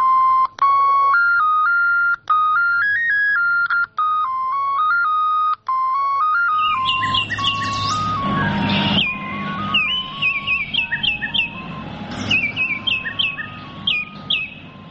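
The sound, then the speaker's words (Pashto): Birds in Germany mimic mobile phone ringtones: a clear, stepped, electronic-sounding melody with short pauses gives way to busy, high chirping and whistling birdsong. “په جرمني کې انټوتکی مرغان د موبایل د بیلابیلو زنګونو او نغمو نکلونه کوي”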